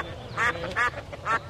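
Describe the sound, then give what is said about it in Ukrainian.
Ducks quacking loudly as two duck families squabble over a fish head, with three harsh, nasal quacks rising above a low background murmur. “Там стояв жахливий галас. Дві родини качок билися за риб'ячу голівку”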